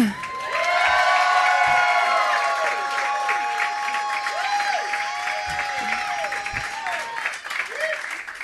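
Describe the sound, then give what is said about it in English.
Audience at a comedy show cheering, whooping and applauding to vote a comedian through to the third round; loud, sustained crowd noise full of rising and falling shouts and whistles that slowly tapers off. “If you want to see Skinny go on to the third round, make some noise for Skinny.”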